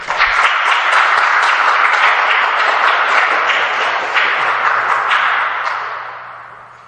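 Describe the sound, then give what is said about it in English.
A church audience applauds to welcome a guest pastor, a dense, steady wash of clapping that holds for several seconds, then fades away. “So, let's give him a warm welcome.”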